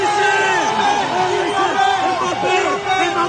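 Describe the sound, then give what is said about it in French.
About a hundred French football supporters shout and cheer as the national team arrives at its hotel in downtown Dallas, a loud mix of overlapping calls and voices throughout. “Une centaine de supporters sont là, ravis de les accueillir.”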